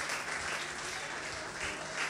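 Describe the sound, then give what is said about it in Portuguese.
An audience at a worship service applauds in dense, even clapping that holds steady and fairly loud throughout without pause. “Dê um aplauso a Jesus agora.”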